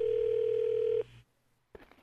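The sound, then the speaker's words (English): A telephone ringing sound effect: one loud, steady electronic tone held for about a second and then cut off, followed by near silence and a brief faint rustle at the end. “Give me a sound effect for the phone ringing, please. Sorry. Hold on. Let me get you your phone ring real quick.”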